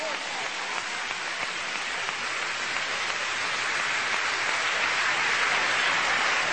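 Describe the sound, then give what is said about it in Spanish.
Applause from a church audience at an evangelical service: a dense, steady clatter of many clapping hands that holds at an even, loud level throughout without pause. “Den fuerte aplauso, Señor hermano, alabe a Dios.”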